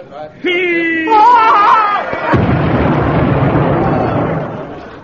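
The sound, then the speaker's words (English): A landmine explodes in a heavy booming blast that swells into a broad roar and fades slowly over a couple of seconds. A man's voice is heard just before the blast. “What was that? Too heavy for a bomb. I think it was a landmine, sir.”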